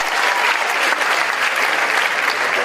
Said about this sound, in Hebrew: איפה כפיים, דעה לתופים שלו?